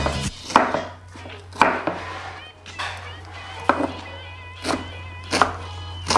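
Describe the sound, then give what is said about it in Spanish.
A knife finely chops an onion on a board, a steady run of sharp, crisp taps roughly a second apart, with low voices underneath. “Bueno, seguimos con el procedimiento que es la cebolla, ¿sí? Se tiene que picar finamente.”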